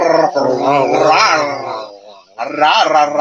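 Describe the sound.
A dog growls and grumbles in a purr-like way. Loud, wavering throaty vocal sounds run in a long stretch, dip briefly, then return in a second burst.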